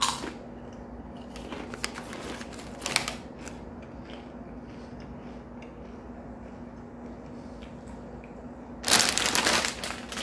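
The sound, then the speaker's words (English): Crisp crunching from eating spicy Doritos tortilla chips comes in short, sharp bursts at the start, a few more early on, and a longer loud burst near the end, over a faint steady hum. “Doritos. I never liked hot, spicy foods, but you gotta learn to eat them. They taste good though.”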